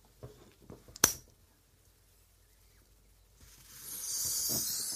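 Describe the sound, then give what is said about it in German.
A bottle opened by pulling a hook-type opener gives a sharp, loud crack after a few small clicks. After a quiet pause, a steady, rising hiss of fizzing foam follows as the bottle overflows. “Das ganz Schicke ist ja, es ist ja auch so ein Haken, wo man einfach nur ziehen muss und dann geht die Flasche auf.”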